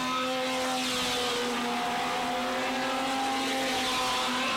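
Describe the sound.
Race cars roar around a dirt track on the first lap: small coupe racers produce a continuous, loud engine drone with steady pitch and no talking over it.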